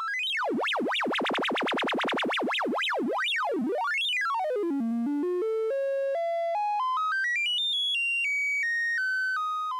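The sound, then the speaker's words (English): Synthesized bleeping tones in the style of 1970s video games: rapid zigzag pitch sweeps up and down, then a slow stepwise fall and rise of pure electronic notes, loud and steady. “And of course it sounds very similar to old school games. And it is in fact very close to the way that those 1970s games would have produced sounds.”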